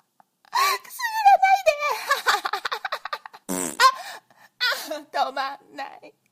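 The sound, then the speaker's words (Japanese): A fart sounds once in the middle, a brief rumbling burst set among a voice's moans, whimpers and gasps, with the vocal sounds continuing before and after. “おなら止まんないの。”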